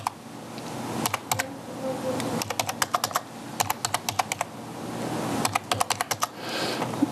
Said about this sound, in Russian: Мы выбираем классический через карту, нажимаем на Visa и вводим номер своей карты.